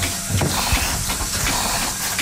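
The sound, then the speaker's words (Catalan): A small milking machine runs during milking season, giving off a steady, loud hiss with a faint, regular pulsing beneath it. “estem munyint, és l'època de munyir i com bé sents hi ha una màquina petita que m'ajuda i la resta ho faig a mà”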